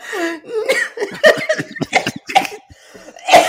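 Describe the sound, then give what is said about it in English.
Coughing after choking on spittle: a few harsh, throaty bursts mixed with voiced, laugh-like sputters. “I just completely choked on my own spittle.”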